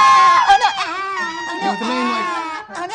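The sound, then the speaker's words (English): A person's voice imitates a creature's cute screaming, a high, squeaky shriek that wavers up and down in pitch for about three seconds, loud and nearly unbroken. “Is it adorable screaming? As adorable as screaming can be.”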